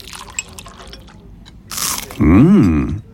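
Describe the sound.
A crunchy first bite of food at breakfast, heard as a short, loud, crisp crunch after faint light sounds, then followed by a louder sustained tonal swell.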